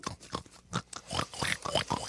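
Faint grunts and snorts from a sweet, cuddly pet pig oinking, a quick irregular run of short rough bursts over about two seconds.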